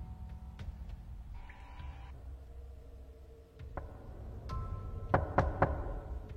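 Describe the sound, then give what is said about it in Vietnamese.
Dry, quick knocking on a door: a few sharp, clipped raps cluster near the end, with isolated faint taps earlier, all over a quiet low background hum. “bất ngờ tiếng gõ cửa khô khốc lại một lần nữa vang lên”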